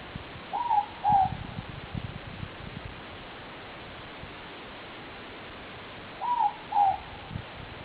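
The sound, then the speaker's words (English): A morepork, a native New Zealand owl, calls at night with two soft two-note hoots spaced several seconds apart, faint against steady hiss. “This is the moorpork, one of my favorites because of the sound they make at night. I just love that sound.”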